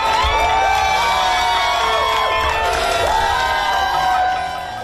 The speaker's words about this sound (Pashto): خو په امریکا کې د اعلان ته خلکو په خوښۍ هرکلی کړی.